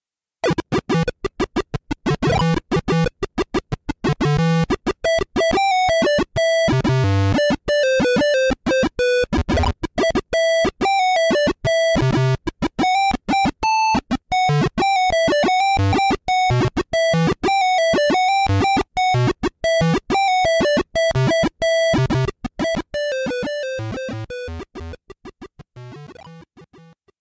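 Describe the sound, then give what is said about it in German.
Video game intro music played through a PC speaker, sounding surprisingly multi-voiced: buzzy square-wave tones in quick, steady pulsing notes carry a bright melody over low bass blips, then fade out at the end. “Und da hören wir mal die Intro-Musik. Und es ist kaum zu erkennen, Gunnar, dass das der PC-Speaker sein soll, weil es eigentlich mehrstimmig klingt, oder?”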